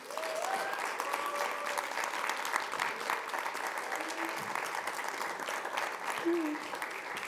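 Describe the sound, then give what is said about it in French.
Applause and cheering greet a dance-event organiser, with steady clapping from the crowd and a few short whistles and shouts rising above it. “Faites du bruit, s'il vous plaît, pour Madame Badia Kassi.”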